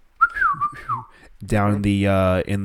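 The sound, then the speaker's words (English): A short whistled signal from a person, a brief wavering tone lasting under a second, followed after a pause by a voice. “She hears her little whistle”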